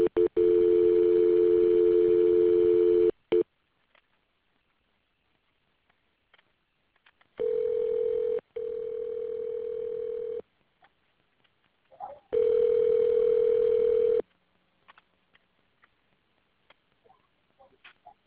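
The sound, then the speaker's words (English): Telephone line tones sound while a call is being conferenced: several long, steady tones separated by gaps, with a brief burst of dialing between them and scattered faint clicks at the end. “I'm going to conference in Toms River. Hold on.”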